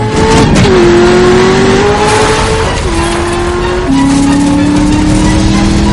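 A car engine roars loudly as it accelerates hard during a chase across a cornfield in a 2013 action thriller, the pitch climbing, dropping at gear changes and climbing again.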